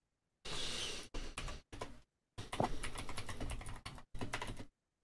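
Fingers type on a computer keyboard to write a prompt for ChatGPT, rapid clattering keystrokes coming in several bursts of varying length separated by short pauses.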